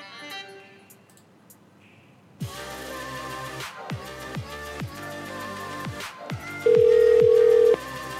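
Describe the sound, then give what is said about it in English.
A telephone ringback tone on an outgoing call, one steady, low beep lasting about a second near the end, preceded by other tonal sounds on the line. “I'm going to call him back to apologize for my terrible behavior.”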